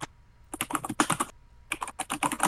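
Rapid keystrokes on a computer keyboard while show notes are typed up, in two dense bursts of quick, crisp clicks separated by a short pause, with no voices over them.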